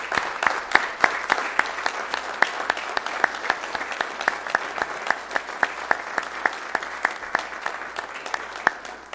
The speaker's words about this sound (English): So, but help me congratulate them anyway for all they've done.